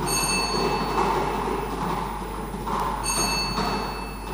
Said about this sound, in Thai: พนักงานออกเลขรางวัลจะได้ทำการหมุนอุปกรณ์ประกอบเป็นครั้งที่4